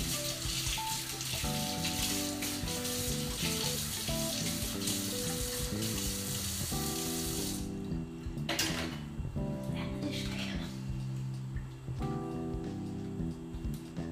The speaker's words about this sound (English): I'm gonna just rinse off my spoon here and my hands.